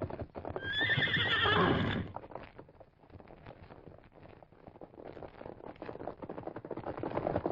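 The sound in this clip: A stallion whinnies loudly, then its hooves clatter in a fast, steady clip-clop gallop as it rides off, the hoofbeats continuing for several seconds.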